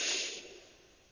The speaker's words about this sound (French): J'inspire tranquillement par le nez